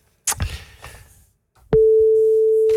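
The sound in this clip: Telephone ringing tone from an outgoing call placed during a Dutch radio programme: a brief burst of noise, then a click and a single steady, mid-pitched tone that holds loudly to the end.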